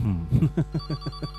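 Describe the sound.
A WhatsApp call ringtone sounds as a rapid run of short, evenly spaced tonal pulses with a steady bright pitch. The pulses keep a regular, fast rhythm at moderate loudness.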